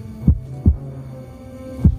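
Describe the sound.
Heartbeat sound effect from a horror film: three deep, low thumps, the first two close together and the third after a longer pause, over a steady low hum.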